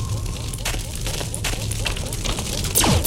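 Fire or lava pit burning in a platform video game gives a dense, steady roaring hiss scattered with sharp crackling pops. A quick whistle sweeps sharply downward at the end.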